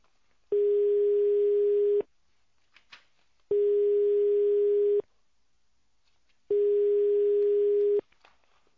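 A telephone tone plays while a caller waits for an answer: a steady, level mid-pitched beep sounds three times, each lasting about a second and a half, separated by silences of similar length.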